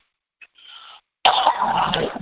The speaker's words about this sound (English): some kind of little cough. Probably that's breathing that Saharan dust all week.